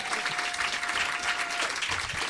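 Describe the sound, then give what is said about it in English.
Audience clapping at a storytelling event, an even, continuous wash of applause that holds steady throughout, with a faint sustained tone beneath it. “Thank you for the clap.”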